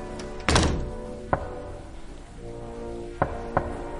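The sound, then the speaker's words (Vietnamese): Knocking on a door: four dull, hollow thuds, one heavier knock, then another, a long pause, then two close together, alone with no talk. “Tiếng gõ cửa cứ vang lên như vậy. Cộc, cộc, cộc.”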